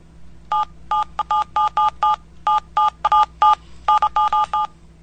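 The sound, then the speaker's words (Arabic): Telephone keypad buttons sound a rapid series of many short, bright dual-tone beeps, each a clipped electronic tone with brief gaps between them, over a faint low hum. “نخليه كصوت أزرار تليفون زي هذه.”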